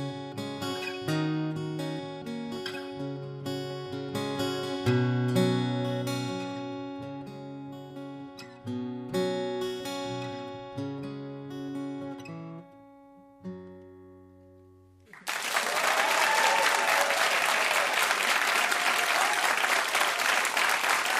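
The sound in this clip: Live acoustic song performed for a studio audience: guitar and a sung melody with clear pitched notes for about fifteen seconds, then loud, sustained applause to the end.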